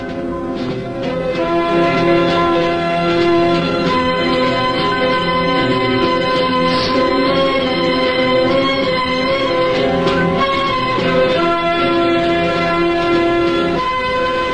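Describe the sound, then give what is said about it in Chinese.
A train speeds through heavy winter snow, giving a steady, loud rolling rumble with sustained horn-like tones held throughout. “冬天的大雪越来越大，列车在雪地上飞驶而去”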